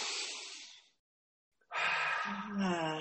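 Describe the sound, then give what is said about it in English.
A slow, deep breath taken in with audible air noise, then a short silence and a second long breath that carries a soft voiced sigh, all fairly quiet. “Let's take a deep breath together right now,”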